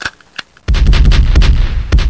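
A gunshot sound effect: after a near-silent start with a couple of faint clicks, a sudden loud blast erupts with a heavy low rumble that rolls on for over a second before trailing off.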